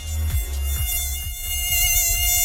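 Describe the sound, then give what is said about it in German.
A mosquito buzzing in a bedroom at night, a loud, thin, high-pitched whine that drones continuously with a slight waver and no voices. “Es gibt doch wirklich nichts Nervigeres, als wenn nachts im Schlafzimmer eine Mücke rumschwirrt, ja?”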